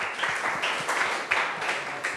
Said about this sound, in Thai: ปรบมือให้หัวหน้าห้องของเราหน่อยนะคะ